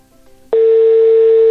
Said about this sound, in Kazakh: Телефондарыңыз қосулы болсын. Иә, біз хабарласып жатырмыз.